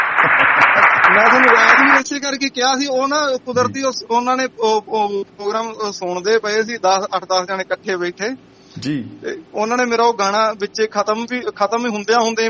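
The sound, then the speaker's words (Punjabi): Loud applause fills roughly the first two seconds, then stops as people begin talking. “ਉਹਨਾਂ ਮਿੱਤਰਾਂ ਦੇ ਨਾਲ ਤਾੜੀਆਂ ਜੀ ਜ਼ੋਰਦਾਰ”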